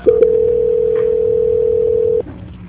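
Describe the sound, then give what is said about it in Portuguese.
A telephone line tone sounds during a call transfer: a single steady pitch holds for about two seconds, then cuts off abruptly into a quiet line, with no voices. “Eu vou transferir a ligação, tudo bem? Uhum. Obrigada, só um minuto. Transferência.”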